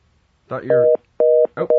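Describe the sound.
Telephone line tone after a dropped call: a steady, dual-pitched electronic tone sounds in three loud, evenly spaced bursts separated by short silences, the last burst cut off.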